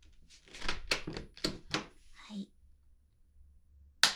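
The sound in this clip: A person speaks briefly, followed by a pause. A door then shuts with a single sharp thump at the end.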